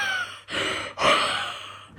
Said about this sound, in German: der Hund schnarcht gerade. Der träumt total. Aber der schnarcht nicht, der atmet ganz komisch.